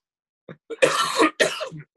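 Someone clears their throat with two rough, raspy bursts in quick succession. Each is short and fairly loud, with silence before and after.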